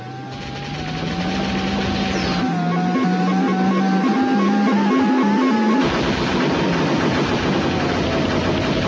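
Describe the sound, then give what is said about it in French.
Futuristic hovercraft racing engine from a video game with missiles and cannons: a loud, continuous droning whine that holds steady, then shifts pitch in steps, with no talk. “Bon, remplacez les tapis volants par un aéroglisseur, les monts brumeux par des circuits et les boules de feu par des missiles. Voilà, vous savez à quoi ressemble High Octane, le dernier jeu conçu par Bullfrog.”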